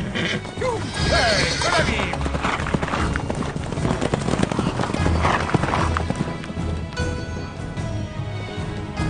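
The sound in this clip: Horses galloping as two riders race, a loud dense rush of many rapid clip-clop hoofbeats running the whole time, with a whinny rising above the hooves early on.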